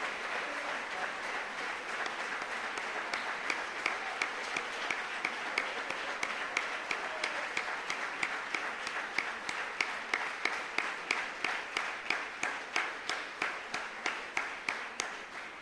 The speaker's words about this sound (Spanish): Démosle un fuerte aplauso, por favor, a quienes terminaron sus programas y hoy reciben la certificación de los mismos.